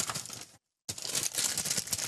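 A snack bag filled with sour gummy candy crinkles and rustles in quick, papery bursts, stops briefly for a moment of silence, then resumes its steady crackling.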